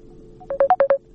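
Telephone signal tones from a listener's incoming call to a phone-in line. A quick run of five short, evenly spaced electronic beeps, the middle one slightly higher, sounds faintly with nothing else around it.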